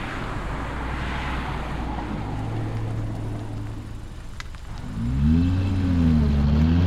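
A car accelerates as the driver steps on the gas. A steady engine drone runs first, then near the end the engine swells into a louder, wavering rev.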